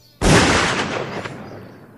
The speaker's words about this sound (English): This here 12-gauge shotgun. This usually takes care of the problem, depending on exactly how hard the rock is.